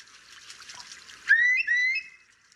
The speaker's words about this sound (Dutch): Dus ik heb het geluid van een wulp voor jullie.